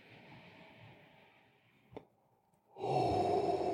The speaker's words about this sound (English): let's do another deep breath.